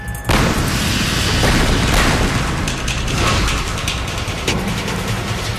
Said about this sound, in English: Maintenance on the road can only be done when the swampland is frozen solid. And blasting is the only way crews can break through the rocky ice.